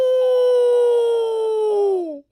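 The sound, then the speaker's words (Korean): A wolf howls at night on a mountain pass: a single loud, long, clear tone that holds steady for about two seconds, then slides downward in pitch and cuts off, heard alone. “늑대다. 어, 도와주세요. 늑대가 저를 잡아먹으려고요.”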